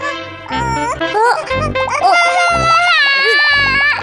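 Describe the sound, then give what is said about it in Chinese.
A baby crying in loud, wavering wails, the pitch rising and falling through repeated, nearly continuous bursts. “怎么又哭了？”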